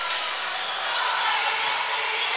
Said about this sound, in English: Dribbling, top of the key, looking for somebody.